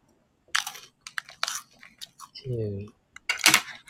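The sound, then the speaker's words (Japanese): Crunchy chewing of a scone, a run of irregular crisp bites and mashing bursts with a brief voiced murmur in the middle, then louder crunching toward the end. “ちょっとスコーン食べますね。”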